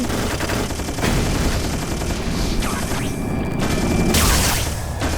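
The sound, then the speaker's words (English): Machine gun firing in rapid, sustained bursts, a loud, dense stream of cracking shots with booming surges, running without pause for the full length. “Oh. Machine gun. Holy shit.”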